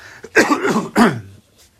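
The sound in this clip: Throat clearing and coughing sound alone, two short, rough bursts with a brief gap between them.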